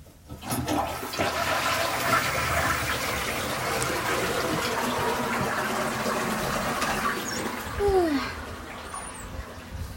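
A toilet flushes with a steady, rushing gush of water that runs the whole time and swells briefly near the end before settling.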